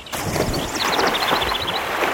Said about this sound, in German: Ich gehe so lang planschen.